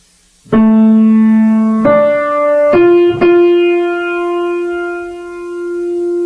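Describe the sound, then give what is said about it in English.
The basic motif of an animated superhero series' theme, played as four sustained, harmonically rich synth notes in a low register. Each note enters with a firm attack and then holds, with no voices present. “The basis for the animated Batman theme is very simple. Sounds like this.”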